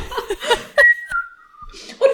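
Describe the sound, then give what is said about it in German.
Someone whistling a cheerful tune: a clear, sustained whistled note that slides a little lower in pitch, with short bursts of other vocal sounds just before and after it. “Und dann er pfeift auch noch ein fröhliches Lied.”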